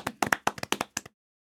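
Scattered hand claps offered as encouragement: a quick burst of sharp, uneven claps lasting about a second, then silence.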